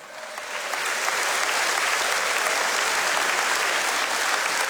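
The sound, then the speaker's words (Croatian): Festival audience applause for the singers, orchestra and backing vocalists at Melodije Istre i Kvarnera. The applause rises within the first second, then stays as a loud, dense, even roar of clapping. “Sigurna sam da su svi naši izvođači, naš orkestar, naši prateći vokali zaslužili još jedan vaš pljesak.”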